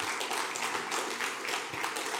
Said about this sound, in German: Einen riesen Applaus für die drei.